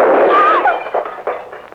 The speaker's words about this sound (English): The gun won't hurt you. Put it in your hand, like that. Now, just pull.